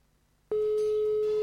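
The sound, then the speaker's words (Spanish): Ringback tone on an outgoing phone call, one steady mid-pitched tone that starts abruptly after near silence and holds unbroken to the end, with no talk. “Suena por segunda vez. Suena por tercera vez.”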